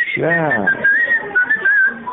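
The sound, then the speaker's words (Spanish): A person whistles a wavering, fairly high tune made of short sustained notes, after a brief burst of voice at the start. “Anda, chifla un poco. ¿No chifla usted en su casa cuando anda solo o no?”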